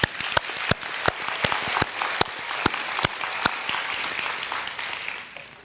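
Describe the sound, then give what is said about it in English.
A church audience applauds the service team on a Sunday morning. Crisp, distinct claps ring out over a steady wash of clapping, then thin and fade toward the end. “So big thanks to all of you. I'd like to ask you all, help me give them a hand.”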